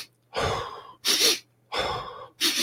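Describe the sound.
Box breathing exercise: four loud, airy breaths, each about half a second long, alternating between inhales and exhales, with short silent pauses between them.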